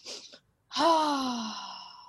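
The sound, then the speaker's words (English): A calming breath: a quick, breathy inhale, then after a short pause a long, slow, voiced exhale like a sigh that fades and falls gently in pitch. The breath is faint and heard on its own. “The calm yourself down version would be two inhales and then a really slow full release.”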